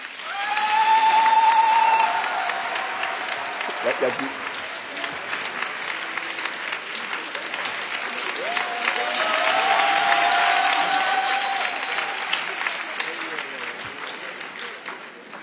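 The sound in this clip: An audience applauds to thank a man at a gathering. The sustained clapping swells and eases across the stretch, and high cheering voices ring out above it near the start and again around the middle.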